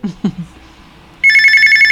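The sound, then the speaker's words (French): A telephone bell rings loudly and steadily in the second half, after a few brief voice sounds at the start. “Oui, ça sonne. Allô, c'est qui?”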